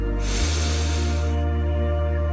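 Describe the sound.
A deep breath drawn in during a guided relaxation exercise: one long, loud hissing inhale lasting about a second, set over a steady low tonal drone that continues after the breath ends.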